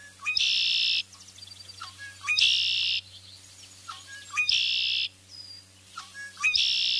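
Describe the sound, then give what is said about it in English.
Red-winged blackbird song: four phrases repeat about every two seconds, each a short rising note followed by a long, buzzy, high-pitched trill. A faint low hum lies underneath. “Red-winged blackbirds have a variety of vocalizations, including the familiar liquid warble,”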